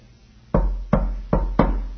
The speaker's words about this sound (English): He's knocking.